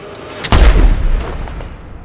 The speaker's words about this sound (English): The gunman aims his weapon and fires past her, then runs.